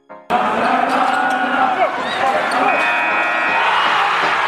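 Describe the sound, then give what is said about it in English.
Opening theme music for a Brooklyn Nets show, with a basketball bouncing amid crowd noise and a sustained tonal layer entering near the end, loud and continuous after a brief quiet start. “We're going to talk about the Kyrie Irving situation, where it stands with the front office, and more. But first, the theme music.”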